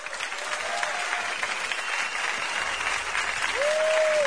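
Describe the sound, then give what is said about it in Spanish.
Audience applause at a live bar show as a performer is introduced: dense, steady clapping from a crowd that holds at an even loudness throughout and swells slightly near the end. “Un gran aplauso para Eduardo Martínez”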